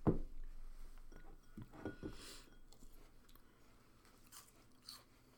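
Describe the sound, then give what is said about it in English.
Crunching as someone bites into a piece of fruit: one crisp, sharp bite at the start, then faint, scattered crunches of chewing. The sounds are quiet overall, and no one speaks. “Whoa. I can hear the crunchiness.”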